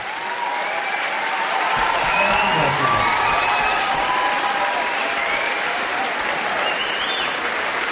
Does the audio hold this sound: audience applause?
yes